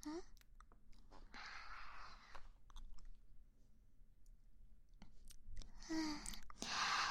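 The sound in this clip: Someone chewing and biting into spicy home-cooked food: a few loud, crunchy bursts of mastication separated by quieter stretches, with soft clicks and breaths between bites.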